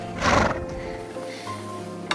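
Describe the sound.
A horse pulling a coach whinnies loudly in one short burst as the carriage arrives. The whinny is followed by a quieter, steady background with faint sounds of movement.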